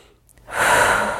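A deep breath taken during a tapping exercise opens quietly, then swells into a loud, steady rushing inhale lasting under a second, with no talking.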